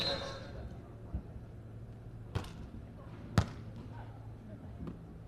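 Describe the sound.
Volleyball serves and hits in a women's match, with the Nanjing city team serving: a few sharp, hollow thuds land about a second apart beneath steady commentary.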